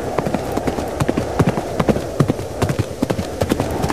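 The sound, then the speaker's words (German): Clip-clopping hooves of a robot horse being ridden, a quick, steady pattern of many crisp knocking hoofbeats at a fairly loud level, repeating throughout. “Er reitet auf einem Roboterpferd.”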